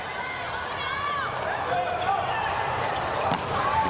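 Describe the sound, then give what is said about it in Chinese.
Volleyball serves struck during a China versus Japan match: a few sharp ball hits over steady crowd noise, with commentators talking throughout. “好发球啊， 又一个好发球”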